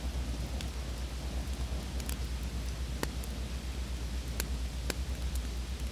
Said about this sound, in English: Save the crackling of the fire, the pouring of the rain.